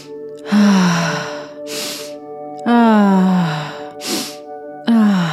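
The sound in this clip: Breathing during a heart-opening breathwork exercise: three long voiced, sighing exhales that fall in pitch alternate with two sharp, breathy inhales, all over steady sustained tones.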